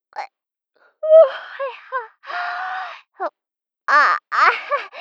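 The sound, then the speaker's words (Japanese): A young woman yawns as she rolls over in bed, a drawn-out, moaning voiced breath set among short breathy vocal sounds and small pauses of silence. “今のあくび、寝返り打ったらなんか出ちゃった。”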